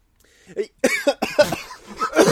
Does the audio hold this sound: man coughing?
yes

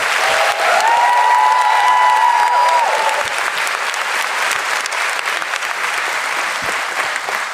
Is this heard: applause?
yes

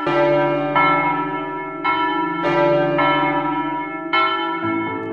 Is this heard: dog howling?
no

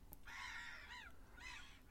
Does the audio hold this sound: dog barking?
no

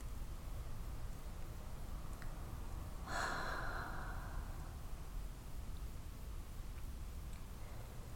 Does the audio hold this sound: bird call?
no

